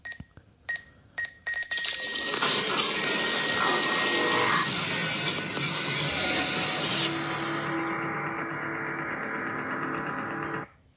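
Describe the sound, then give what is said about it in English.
A fax machine goes haywire: a few sharp clicks give way to a long, loud, buzzing screech with steady whining tones. The screech drops in level partway through, then cuts off abruptly. “What was that? A fax machine going on, going haywire.”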